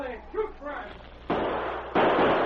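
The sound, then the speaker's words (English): Gunfire from outlaws and a sergeant in a shootout: two loud, sharp blasts with a lingering tail, following a brief spoken voice. “Once more, the outlaws opened fire, but panic spoiled their aim. In rapid succession, the sergeant's bullets struck home.”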